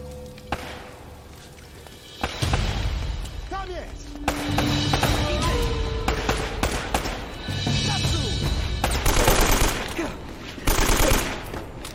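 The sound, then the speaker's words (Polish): Video game gunfire crackles in rapid bursts and sustained volleys, loud throughout, with people talking over the shooting. “Gdzie on strzela?”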